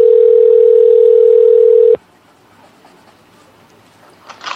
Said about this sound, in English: I'm sorry, the phone, it was ringing, I couldn't.